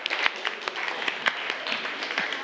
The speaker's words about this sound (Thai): ปรบมือกันหน่อย